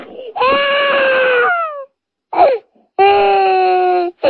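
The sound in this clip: Wailing, crying sound effect: two long, drawn-out harmonic wails, the first sliding down in pitch as it fades, separated by short sobbing bursts, loud and alone with no talk.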